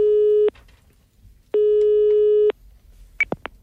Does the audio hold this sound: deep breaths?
no